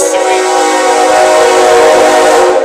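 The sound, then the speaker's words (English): A train passes sounding its horn: a loud, sustained, chord-like blare held throughout over the heavy rumble of rolling railcars, with no talking. “The train is here”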